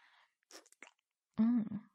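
Soft, quiet chewing crunches come in a few brief bursts of food being eaten, followed by a short voiced hum of approval.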